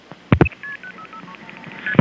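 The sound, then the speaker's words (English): A quick run of telephone keypad tones dials a four-digit number on a phone line, short bright beeps in close succession, set between brief bursts of handling noise at the start and end. “Dialing 3111 this time.”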